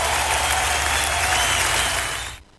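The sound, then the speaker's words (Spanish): Congregation applause during a church worship service, dense and even clapping over a low sustained tone, holding steady before cutting off abruptly near the end. “aplauso al Señor fuerte.”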